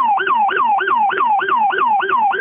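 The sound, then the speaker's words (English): Police car sirens recorded on a voicemail sound in a fast, loud yelp: the pitch rises and falls in quick repeating cycles for the whole clip, with no voices. “someone just left police sirens on a voicemail”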